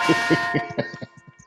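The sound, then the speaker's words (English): A church bell ringing: a bright, metallic tone struck in quick repeated strokes that grow fainter and more widely spaced as the ringing dies away. “What? You trying to skip my church bells? What are you talking about? You and this bell, man. What's going on with you and this bell? But go ahead, play your bell, man. Play your bell.”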